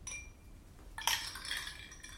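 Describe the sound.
Ice cubes clinking into a glass of whisky: after a quiet start, a bright clink of ice against glass followed by a short, fading rattle.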